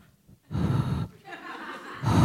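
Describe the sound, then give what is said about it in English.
A voice imitates sharp, exaggerated breaths: after a near-silent start come a few heavy, gasping bursts of air, the last one loudest. “I all of a sudden became very aware of my breath. I was like...”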